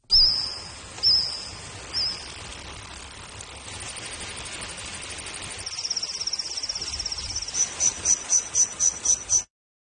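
Recreated chirping of a Jurassic-era insect: three short high tonal chirps, then a sustained shrill trill, ending in a rapid series of pulsed chirps before cutting off.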